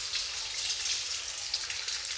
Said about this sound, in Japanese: 美容室でもこのように髪を洗っていただくことがありますが、本当に幸せなひとときですわよね。